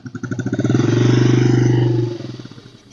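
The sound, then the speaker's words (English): A Honda CRF110F carbureted dirt bike cold-starts on its electric starter at about 35°F with the choke on. Rapid cranking pulses lead into a low, steady engine rumble, which then falters back into uneven chugging pulses. “So even with the carb, turn the gas on, turn the choke on, electric start. There we go.”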